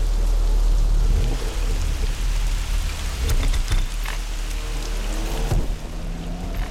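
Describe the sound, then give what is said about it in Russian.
Evening rain falls as a dense, steady hiss with scattered sharper drops and patter. It stays loud and continuous with no voices. “В один из вечеров шел дождь.”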